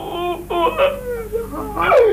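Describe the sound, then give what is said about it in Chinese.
A storyteller's voice performing crying in a traditional Chinese storytelling narration, with loud, wavering sobs and wails in uneven bursts. “他一哭啊，关羽也哭了。”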